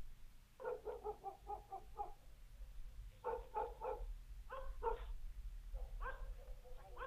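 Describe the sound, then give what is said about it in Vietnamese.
Dogs bark loudly at the end of a village, their rapid, harsh barks coming in four bursts separated by short pauses, with a steady low rumble underneath. “gã bỗng nhiên nghe tiếng chó sủa ở cuối làng. Tiếng chó cắn ông ổng vang lên.”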